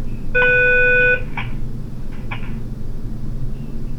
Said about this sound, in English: I'm not hearing that. I just heard a couple beeps, but I'm not hearing any static.